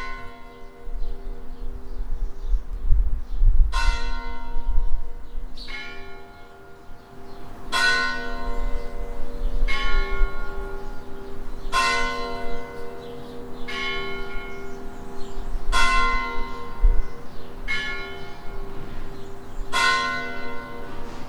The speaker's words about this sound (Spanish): la pedanía de Guadalupe, el 2 de noviembre suena así el toque de anime